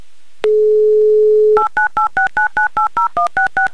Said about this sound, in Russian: Звоним в Балаково, звоним Виталию прямо сейчас.